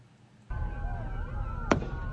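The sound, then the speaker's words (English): A single sharp gunshot cracks out once, loud and abrupt, during a shooting in which a man was hit, heard over a steady low rumble and background voices. “Oh my God. How many shots was that?”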